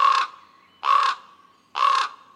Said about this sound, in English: What about a conspiracy of ravens? Are they truly conspiring about something, or do we just perceive them as untrustworthy?